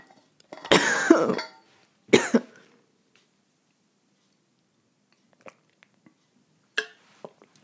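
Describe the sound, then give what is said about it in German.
Coughing from a scratchy throat: a long, harsh cough burst followed by a shorter one, then quiet with a few faint small clicks as a drink is sipped. “Lass mich mal kurz ein Schlückchen trinken.”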